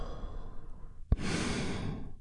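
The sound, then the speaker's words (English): A deep breath drawn in and then released as a long, airy exhale during a group relaxation exercise. The breathing is soft, and a brief click comes just before the exhale. “we start by taking a big, deep, healing breath all together. Here we go. And release.”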